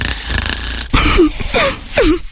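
A person snoring, with a few rough, breathy snores in an uneven rhythm, each carrying a wavering tonal rasp.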